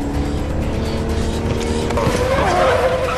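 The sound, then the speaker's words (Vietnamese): A large hearse with no lights drives forward on a snowy road as its wheels skid. A continuous engine roar runs throughout, and a tire squeal grows stronger toward the end. “Một chiếc xe tang lớn, không đèn, đang chạy về phía ông.”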